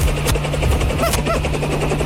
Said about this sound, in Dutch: Er landt hier een enorme helikopter.